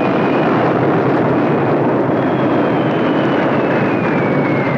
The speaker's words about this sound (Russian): Черно-белые кадры военной хроники. Самолет сбрасывает бомбу.